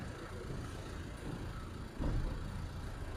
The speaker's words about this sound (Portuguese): Uma rua bastante movimentada. Passa bastante gente, bastantes carros também.